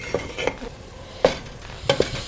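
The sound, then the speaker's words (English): Tomato cooking down in a pan as chopped herbs are added, with a soft steady sizzle and a few sharp stirring clinks and scrapes of a utensil against the pan. “you can see the tomato is just kind of cooking down. I'm actually going to add some herbs.”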